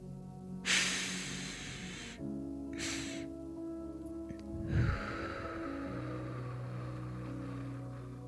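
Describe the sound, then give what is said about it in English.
Relaxation breathing: a long sniffing inhale through the nose, then a second, shorter nasal inhale, followed by a slow, airy exhale through the mouth. All three breaths are quiet and sit over a low steady background hum. “you take 2 inhales through your nose, the first one longer than the second, and then exhale slowly through your mouth. Let's try it together.”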